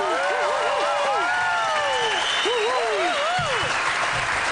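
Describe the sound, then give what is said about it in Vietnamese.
Audience applause keeps up a constant, loud roar of clapping throughout, with a voice rising and falling over it. “Xin cảm ơn quý vị, xin cảm ơn những tràng vỗ tay của quý vị rất nhiều, nó khiến chúng tôi rất là phấn khích.”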